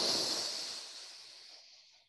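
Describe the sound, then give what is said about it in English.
A single quick breath in, taken as part of a guided breathing exercise: a soft, airy, hiss-like rush that starts at its strongest and fades gradually over about two seconds, heard alone and fairly faint. “I'm going to breathe in quickly.”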